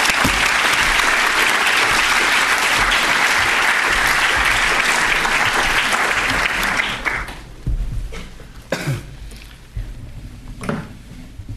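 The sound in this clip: Loud, dense audience applause greets a speaker at an LSE lecture. It holds steady for about seven seconds, then thins out into a few scattered claps and small knocks.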